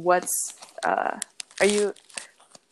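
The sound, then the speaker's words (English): A paper card is handled, giving bursts of crinkling and rustling that mix with a person talking. “what's going on in the background? Oh, I was looking at a card. I'm sorry. That's okay. I was just like, oh no, it's kind of really loud.”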